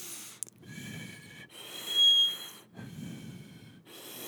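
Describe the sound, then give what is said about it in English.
A voice imitates whistling breath through the nose with a few drawn-out nasal breaths, each carrying thin, high whistling tones over airy hiss. The loudest whistle comes in the middle. “my stepdad at the time, he would whistle when he breathed through his nose. And I'd be sitting in the truck with him, and he'd just be,”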